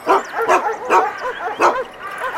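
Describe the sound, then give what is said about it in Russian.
A large guard dog on a heavy chain barks repeatedly, giving a few loud, rough, mid-pitched barks in an uneven rhythm. “Знакомится с хозяйской собакой. Так, вы близко не подходите. О, такая немаленькая собачка. И цепь у нее серьезная.”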